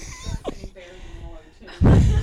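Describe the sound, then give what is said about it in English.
A door slam sound effect hits loudly near the end and rings on briefly, after a stretch of people talking. “We got to get security next time, Timmy. Best door available on iTunes.”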